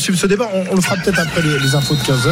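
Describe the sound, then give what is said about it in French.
A rooster crows beneath continuous talk, its calls blending with the voices throughout the short stretch. “Ça, c'est quand on entend un cocorico comme ça, c'est un coq. C'est un coq qui chante et qui fait gagner des lots.”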